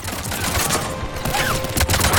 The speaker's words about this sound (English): They have like a heavy gun. Aha! It's a person on a heavy gun turret,